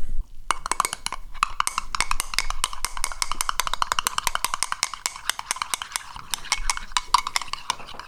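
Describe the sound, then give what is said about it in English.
A spoon stirs powder rapidly into milk in a mug, making a dense, steady stream of quick metallic clinks and scrapes that runs almost unbroken for the whole stretch, with no voices. “I'm just going to try and add it to the milk and stir it at the kind of speed where I think it won't have a chance to clump.”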